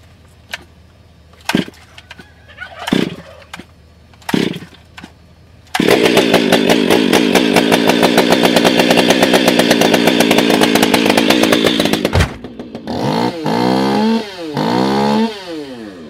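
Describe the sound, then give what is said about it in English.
A 500i chainsaw starting and running: a few short bursts of engine revving, then a long loud high-pitched wide-open buzz, easing into lower, wavering revs that rise and fall. “Do you EDC a 500i? Have you even heard one of these things? Listen to this thing.”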